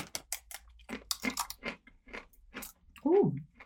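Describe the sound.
Crunching of star-shaped, curry-flavoured Christmas crisps being bitten and chewed at breakfast time: a quick, uneven run of many crisp, dry crackles, fairly loud.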